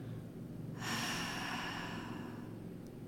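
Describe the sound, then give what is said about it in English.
A slow exhale through the mouth: a soft, steady, airy rush that begins after a brief pause and holds evenly for over two seconds, heard alone. “slowly exhaling through your mouth. So like inhale, just keep it there, and”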